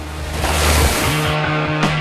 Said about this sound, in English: Later, Jay is surfing, carving up the waves with aggression and attack, twisting and turning back and forth across the wave.